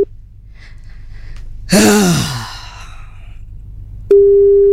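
Telephone line tone as a call is placed from a radio station, a steady electronic hum starting abruptly near the end, preceded by a breathy, gasp-like burst.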